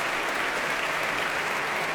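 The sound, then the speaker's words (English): Concert applause for the Royal Philharmonic Orchestra at the BBC Proms, closing Bach Day: a continuous, even wash of many hands clapping at moderate loudness with no break or voice. “That applause is for Cleo Gould leading the Royal Philharmonic Orchestra tonight at the BBC Proms in this grand culmination of Bach Day at the Proms.”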